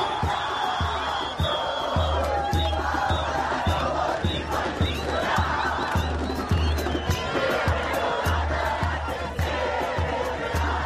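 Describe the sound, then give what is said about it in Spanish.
A massive crowd of millions celebrates in the streets of Buenos Aires: a dense, continuous roar of chanting, shouting and cheering that stays loud and unbroken from start to finish. “Este es el sonido de las celebraciones con millones de personas en Buenos Aires.”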